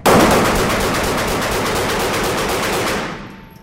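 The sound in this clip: A firearm fires a rapid, continuous burst at a shooting session. The shots blur into a loud, dense rattle for about three seconds, then cut off and fade.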